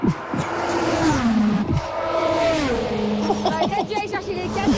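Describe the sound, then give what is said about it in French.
A car passing at 300 km/h, its loud engine whine sweeping and dropping in pitch as it goes by, followed by further high revving tones. “Alors attention, on va entendre le bruit d'une voiture qui passe à 300 km/h.”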